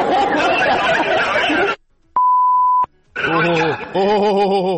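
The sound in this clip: A single electronic beep: one steady, mid-pitched tone lasting under a second, sounding alone in a silent gap. People chatter before and after it.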